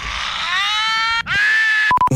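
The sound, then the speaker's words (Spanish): A loud rock-style scream, wanted for a rock festival: two long sustained screams split by a brief break, followed by a few short sharp bursts at the end. “Necesito el mejor grito rockero.”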